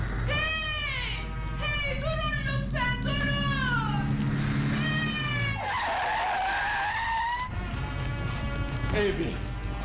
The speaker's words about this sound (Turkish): Oh, bir araba geliyor. Ama tozdan görünmüyor.